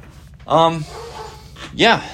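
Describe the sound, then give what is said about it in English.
A pet dog barks twice, each bark loud, sharp and tonal, separated by a pause of just over a second over a low, faint background. “Sorry if you hear my dog barking. He's being a jerk to something.”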